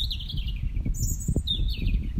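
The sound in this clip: Birdsong in spring among fields and meadows: thin, high chirps and whistled trills come and go over a steady low rumble, with no voices.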